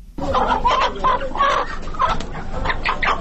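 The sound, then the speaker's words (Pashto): Chickens cluck in short bursts at a market stall as a shopkeeper pulls one from a cage, several fowl clucking at once in a busy, moderately loud stream without pause. “د صدې په بازار کې دکاندار د خرڅ لپاره لا پنجرې چرګ راوباسي.”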